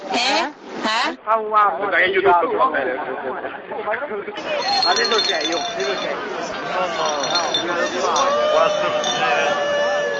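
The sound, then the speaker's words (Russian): Italian football fans passing along Via Nazionale in Rome: after a few seconds of a man talking, a loud, dense mass of voices and tones swells in and continues steadily to the end. “А это итальянские футбольные болельщики проезжают мимо нас по Виа Национале.”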